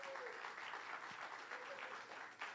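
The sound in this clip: Warm applause from a church audience welcoming the pastor to the pulpit at an Easter morning service in Hackensack. The clapping is steady and continuous throughout, with no talk over it.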